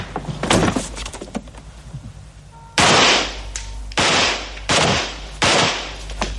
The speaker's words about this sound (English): That's a real gun firing a real sound effect of a gun being fired.